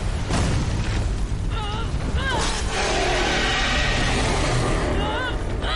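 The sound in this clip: Booming bursts and explosive impacts as shots hit the orange weak spot of a giant robot in a video game. The roar is dense and continuous, with brief whistling tones rising and falling above it.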